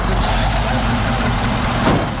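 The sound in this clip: A full garbage truck crawls slowly while its crew collects rubbish bags from residents. Its engine gives a heavy, steady low rumble, a loud continuous drone that runs through the whole clip.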